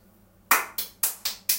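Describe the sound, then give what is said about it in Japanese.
Hands clap five times in a steady, even rhythm after a short quiet pause. Each clap is sharp and crisp and stands alone. “自分で拍手するのよくないよね。”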